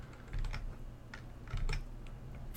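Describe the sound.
Key clicks from a computer keyboard as a name is typed at a command-line prompt: a quiet, irregular run of taps over a low, steady hum.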